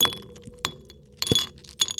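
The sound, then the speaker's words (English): Ice clinking into a highball glass while a drink is made: a few faint, sharp glassy clinks at irregular intervals. “First, start off with a highball glass and some ice.”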